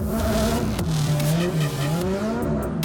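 A drift car transitioning and pushing through a corner: loud, continuous engine revving with a wavering pitch and sustained tire squeal throughout.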